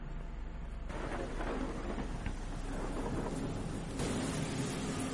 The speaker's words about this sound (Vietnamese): vẫn cứ vang lên trong tiếng gió, tiếng mưa ở bên ngoài, càng làm cho không khí thêm ảm đạm.